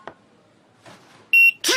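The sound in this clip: A checkout barcode scanner gives one short, bright electronic beep. A voice speaks right after it, with faint rustling earlier.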